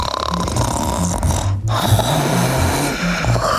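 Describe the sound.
A person imitates snoring with a rough, rasping, low, breathy rattle. It is loud and sustained, briefly breaking near the middle, with no other voices.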